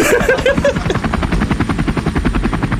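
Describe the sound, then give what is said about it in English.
A police helicopter circling overhead in the morning, its rotor beating out a loud, steady, rapid thump that holds throughout with no pause. “The police chopper. It's honestly what it was like.”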